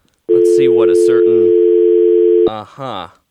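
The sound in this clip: A steady telephone line tone sounds while a radio call-in caller is connected. Voices talk over it before the tone cuts off, and the talk carries on briefly afterwards.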